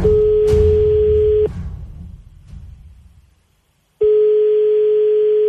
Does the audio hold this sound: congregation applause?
no